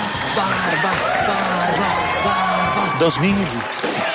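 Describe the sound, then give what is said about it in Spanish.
Wild audience cheering: loud, continuous crowd roar with whoops and high shouted yells layered throughout, staying at a steady level without a break. “El público enloquece.”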